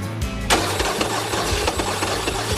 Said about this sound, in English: the battery is stone dead from all this cranking